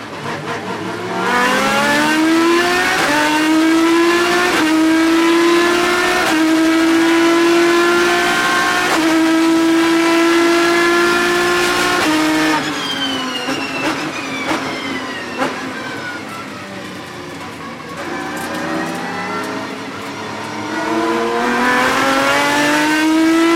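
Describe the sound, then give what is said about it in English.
An Aston Martin Vantage GT3 race car with a 6-liter V12 engine revs loud and continuous. Its pitch climbs again and again through several gear changes, then drops and climbs once more. “This is now a 6-liter V12 from Aston Martin's Vantage GT3.”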